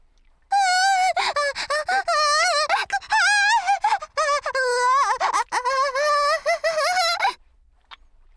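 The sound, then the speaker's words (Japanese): Tight, smooth latex suit and snug leather gloves rub together, making a long run of high, wavering rubbery squeaks in quick bursts that stop shortly before the end. “スベスベピッチリスーツとキツキツレザーグローブが擦れ合ってキュッキュッて音がして”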